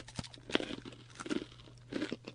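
Seaweed algae chips crunching between the teeth: a few sharp, brittle crunches in an irregular chewing rhythm, faint and close, with no talk.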